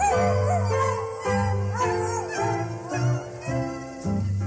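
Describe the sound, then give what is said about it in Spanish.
A puppy howling in pain from a toothache, with wavering, whimpering howls in several short phrases over sustained musical tones, each phrase broken by a brief dip. “Al perrito le duele una muela.”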